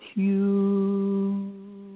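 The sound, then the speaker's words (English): A voice chants the HU mantra tone of Eckankar: one steady, low, sustained hum-like tone held for about two seconds, easing slightly in loudness near the end. “the hue, this is the tone that people who study Ekankar, they use that frequency tone as a mantra to recite this sound.”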